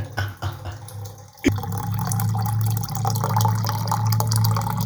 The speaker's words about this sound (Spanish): Llenando mi pote voy a yo cepillar esos dientes que tengo bien cariados.